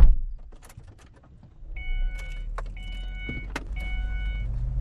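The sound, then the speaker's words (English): Car being driven into the desert: a steady low engine rumble inside the vehicle, with repeated whirring of electric windows and a few sharp clicks, no voices. “drives me into the heart of the desert.”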